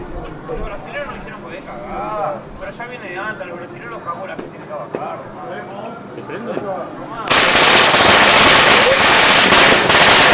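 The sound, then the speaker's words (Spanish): Domestically made fireworks set off, first with people talking, then a sudden loud, sustained crackling hiss that fills the last few seconds. “Y estos son realmente 100% nacionales estos fuegos artificiales.”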